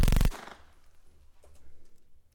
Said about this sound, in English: Now, shoot that target dead center. Make sure you trace the hole 3 times. Only one hole better appear in that target.